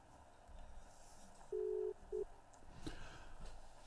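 Telephone tone while placing a call: a longer steady beep followed by a short one at the same mid-low pitch, clean and pure over a faint background hiss.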